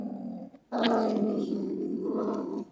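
A marten calls with a harsh, noisy growling rasp that lasts about two seconds and stays loud and unbroken after a brief lower sound and a short pause. No talk is heard.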